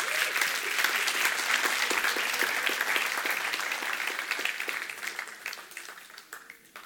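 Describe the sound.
A church audience applauds the Lord during a worship service, with dense, sustained clapping from many hands that holds steady for several seconds and then thins and fades toward the end.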